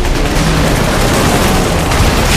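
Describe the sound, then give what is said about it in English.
Ship guns firing in battle at targets diving from the sky: a loud, dense, unbroken roar of gunfire and blasts, with no separate shots standing out. “Along with Sadakis, the barrels of every functioning gun blaze wildly at targets that seem to appear out of thin air, roaring down on top of their heads, some catching lead,”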